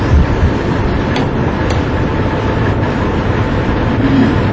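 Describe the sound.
An electric fan run at full speed gives off a loud, constant whooshing roar that stays level and unbroken throughout, with no voices.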